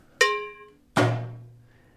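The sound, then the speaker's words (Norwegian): A homemade gunshot sound effect made by school students: two sharp, fairly quiet bangs, the first with a brief ringing tone and the second a broader burst with a low trailing decay. “Eller hva med et skudd?”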